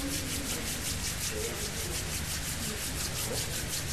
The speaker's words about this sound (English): Go ahead. Samo nastavite trljati. Till it begins very hot. Sve dok ne postanu zaista vrući dlanovi.